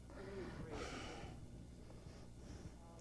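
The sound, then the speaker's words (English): A deep breath drawn by a preacher during a sermon: one noisy, airy inhale lasting about half a second near the start, over a steady low hum, then quiet. “I'll just take a deep breath”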